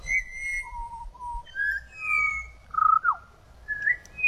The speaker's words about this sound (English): So that's the sound of the Pied Butcher Bird.